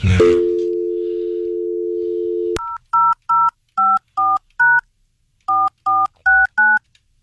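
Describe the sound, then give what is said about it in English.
Telephone keypad tones as a number is dialed: a steady dial tone for a few seconds, a click, then nine short, even beeps of varying pitch in two quick bursts. “I don't know whether you dialed enough numbers.”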